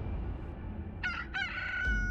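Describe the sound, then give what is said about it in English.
A rooster crows once in a short, broken burst of harmonic calls midway through, fairly faint above a steady low background rumble, followed by a brief trailing tone. “the first crow of the rooster”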